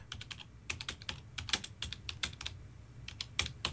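Someone types on a computer keyboard: many quick, irregular keystroke clicks in bursts with brief pauses, quiet and without talk.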